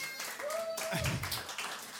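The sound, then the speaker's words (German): Clapping from an audience at a carnival club gathering, a steady patter of many hands with voices and a brief held vocal tone over it. “So, jetzt könntet ihr auch klatschen.”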